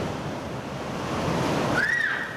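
Sea waves break on a beach in a continuous broad, hissing wash of surf that swells slightly toward the latter half and then eases a little.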